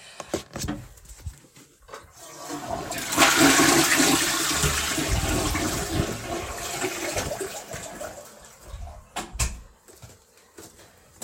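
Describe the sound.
A toilet flushes after a few sharp clicks and knocks, releasing a loud rushing roar of water that lasts several seconds and slowly fades. More clattering clicks follow at the end.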